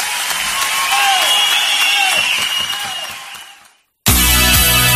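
A live audience applauds a musical group with dense, steady clapping that slowly fades away. After a brief silence, loud music cuts in.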